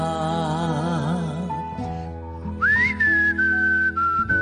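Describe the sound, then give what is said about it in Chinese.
Someone whistles a tune, a clear, high sustained note that slides up, then eases slowly downward, heard over steady, low musical tones after a stretch of wavering, sung-sounding notes. “好嘢喎，吹口哨。我因为啲牙唔齐呢，我吹漏风。”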